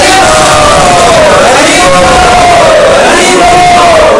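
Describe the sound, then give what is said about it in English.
A crowd of devotees chants loudly in unison to welcome an honoured visitor. The voices hold one sustained, powerful tone that swells and bends in pitch throughout, filling the whole clip. “So let us welcome Maharaj by loudly chanting three times.”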